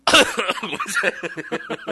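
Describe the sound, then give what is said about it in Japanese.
A loud, harsh cough bursts out, then trails into a run of short, choppy voiced bursts that taper off, with no clear words. “しっかり咳しちゃった。”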